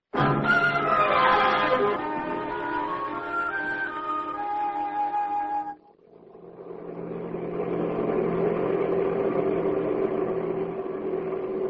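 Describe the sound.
Vehicle engine while driving on a road toward a curve: a droning whine that shifts in pitch, briefly drops away near the middle, then returns as a rougher, steady rumble.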